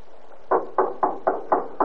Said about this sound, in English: it isn't so long before we're knocking at the portico.